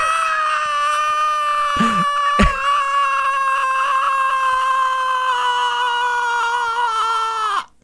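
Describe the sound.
A human voice imitating a shriek from a grave: one long, loud, high wail held for about seven seconds, sinking slightly in pitch before it cuts off abruptly.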